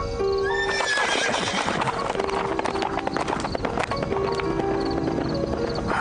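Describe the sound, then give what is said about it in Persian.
A horse with a rider gallops through an open gate, its hoofbeats drumming rapidly and loudly throughout, with a high neigh near the start. “عجیب است، دروازه چرا باز بود؟ سوار که بود؟ او چه کسی بود که این گونه می تاخت؟”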